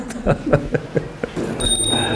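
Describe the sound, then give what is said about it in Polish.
A small hanging good-luck bell in a museum is rung, giving a bright, high, lingering ring that carries to the end after several soft handling knocks. “Każdy może zadzwonić, bo on jest wisi tu do dzwonienia. Jest na szczęście, tak.”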